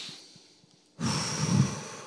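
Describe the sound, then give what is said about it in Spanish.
A single deep, airy breath follows a second of near silence. It is loud and breathy and carries on to the end. “Take a deep breath right now.”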